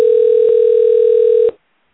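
Telephone ringback tone on an outgoing call to a Las Vegas pawn shop: a single steady, buzzing tone lasts about one and a half seconds, then cuts off abruptly into silence.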